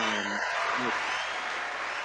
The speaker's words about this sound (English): I had to get the cheers real quick.